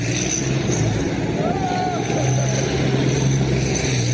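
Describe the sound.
A tank doing donuts on a street in Slavyansk, eastern Ukraine, gives a steady, even engine rumble and drone throughout, with a person talking over it.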